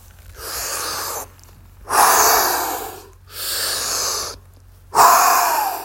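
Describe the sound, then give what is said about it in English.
Deep breathing in and out during a timed exercise routine with big, wave-like arm movements: four long, loud breaths, alternately softer and stronger, separated by short silent gaps over a faint low hum. “Inhale, exhale. We've got 30 seconds to go, guys. Inhale, exhale.”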